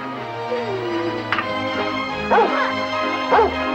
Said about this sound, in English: Looks like we've got us a dog.